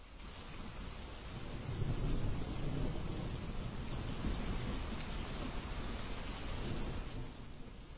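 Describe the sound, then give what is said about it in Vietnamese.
Heavy rain pours down steadily at night, making a dense continuous hiss with low rumbling swells that stays fairly faint throughout. “Trời vẫn đổ mưa tầm tã”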